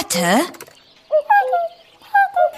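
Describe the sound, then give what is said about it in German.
Cuckoo calls in a jungle setting: two short groups of clear, hooting, whistle-like notes that step downward in pitch. They follow a brief, rising vocal sound, and the calls stand out against near silence. “sie hörte den drohenden Ruf des Kuckucks”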